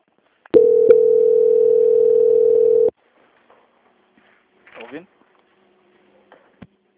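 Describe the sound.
A steady electronic tone plays during a call transfer to a bank's quality-control line. It holds one even pitch for about two seconds, then stops and leaves near silence with a few faint, brief noises.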